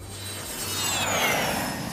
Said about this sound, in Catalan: I com cada dimarts pujam a l'avió de l'estudi d'IB3 Ràdio i partim a visitar qualsevol mitjà del programa que viu a fora de Balears.